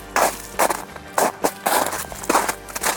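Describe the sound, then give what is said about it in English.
Crunching footsteps of someone walking through snow in Cincinnati: a steady, uneven series of several soft, broad crunches with short gaps between them, and no talking. “Can you hear? I'm walking now. Listen to this.”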